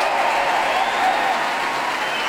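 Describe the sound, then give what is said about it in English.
Loud applause for an orchestra at the Royal Albert Hall, including the timpanist and percussion section, forms a dense, continuous roar of many hands clapping without pause. “Large applause there for the timpanist, the percussion section, all of the orchestra now on their feet.”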